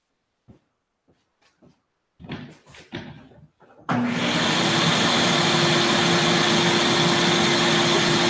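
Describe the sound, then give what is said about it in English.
A shop vac with an extended hose and brush attachment starts up after a few faint knocks and rustling, then runs alone as a loud, steady roaring rush with a low, constant hum underneath until the end. “with a shop vac like this, we have a standard shop vac under there, extended hose and a brush attachment here. I'll just fire this thing up.”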